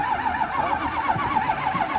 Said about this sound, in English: trying to figure out how to get this car started. There's a rumor that it may just be out of gas.